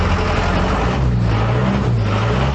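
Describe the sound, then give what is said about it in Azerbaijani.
A city bus approaching a stop gives a steady, loud low engine rumble that holds throughout, with no voices heard. “Baxın, indi 14 nömrəli marşrut yaxınlaşır.”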